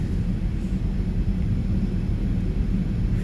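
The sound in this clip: Airliner cabin noise during a late-night flight to Dubai: a constant, dense low roar and rumble with a broad hiss above it, unchanging throughout, with no voices.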